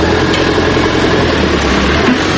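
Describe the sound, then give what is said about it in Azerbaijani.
Stone cutting at a construction site beside red-brick roadside walls at the entrance to Ganja gives a loud, steady machine drone, a low rumbling hum that runs unbroken throughout with no voices. “Daş yonanın səsi, ətrafı təmizləyənlərin hay-küyü bir-birinə qarışıb.”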